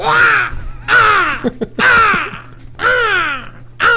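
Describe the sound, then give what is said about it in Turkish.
A voice imitates a seagull with loud, harsh, wavering squawks that drop in pitch, four full cries and the start of a fifth. Short clicks fall between them over a low steady hum. “Ama martının sesi de bir çirkin. Bir yap onu, sen bir çok güzel yapıyordun. Tamam yapayım onu.”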